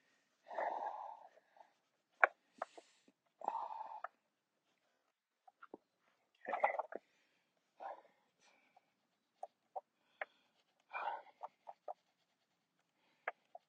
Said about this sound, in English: It's good exercise, you know? You hear me? I'm out of breath.